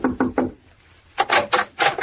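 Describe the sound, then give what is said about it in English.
Knuckles rap on a wooden cabin door: three quick, dull knocks, a pause of about half a second, then four more in an even rhythm, slightly muffled and alone without voices. “I pulled up at the Shady Glade and knocked at the door of cabin number 4”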